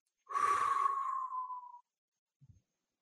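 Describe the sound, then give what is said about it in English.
A long exhaled breath pushed out through the mouth, part of a guided group breathing exercise, comes as one steady breathy rush of about one and a half seconds with a faint tonal edge, then fades to silence with a soft brief sound after. “So exhale all the breath out of your mouth.”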